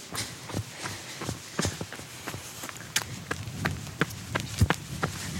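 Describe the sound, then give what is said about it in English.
Jogging footsteps make a quick, fairly steady run of many sharp thuds at an even pace, heard alone with no voices. “And come to a jog. A few more seconds of running, and then we are done.”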